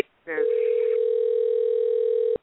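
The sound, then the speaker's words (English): A computer call rings in as a single steady electronic telephone tone, bright and evenly pitched, holding loud and unbroken for about two seconds before stopping abruptly. “There's telephone ringing. That's the computer call.”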